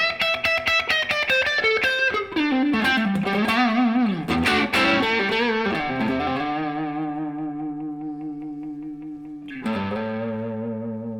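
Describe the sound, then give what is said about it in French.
Electric guitar played on its neck pickup through a clipping effect: distorted picked notes and chords ring with long, singing sustain that gradually fades, and a fresh struck chord bursts in near the end. No one speaks. “On a un sustain naturel, très chantant, très musical. On entend presque le bois de la guitare.”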